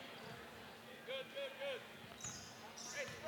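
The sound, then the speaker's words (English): A basketball is dribbled on the court during a game, a slow, methodical left-handed dribble giving several dull, evenly spaced bounces under an announcer's talk. “Into the backcourt to White, and he'll bring it up left to right. Across that timeline with that left-handed dribble, slow, methodical.”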